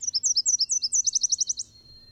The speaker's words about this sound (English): A tiny Nashville warbler flies to its nest, a fat caterpillar clamped in its beak.